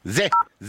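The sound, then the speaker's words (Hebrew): A single telephone keypad tone for the digit zero: a steady, clean dual-pitch beep lasting about a tenth of a second. Speech comes just before and just after it. “הנה, זה, זה הצליל של אפס,”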